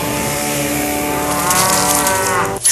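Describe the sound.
A cow moos in one long, loud, buzzy low call that holds steady for nearly three seconds before cutting off abruptly at the end.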